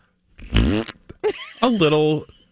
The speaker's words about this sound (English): something that's labeled fart bag sounds like this